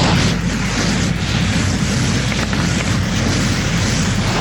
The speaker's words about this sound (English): So here comes a blaze rifle blast.